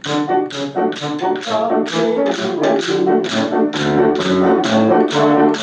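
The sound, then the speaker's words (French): Steady tapping keeps a regular tempo beat, like a walking pace, for a music lesson. Many evenly spaced, fairly loud taps carry a ringing, pitched tone and continue without pause through the whole stretch. “Alors pour le tempo, et le genre de façon de frapper, ça va être, là aussi, c'est comme pour les noms des notes, là, vous enfoncez des clous”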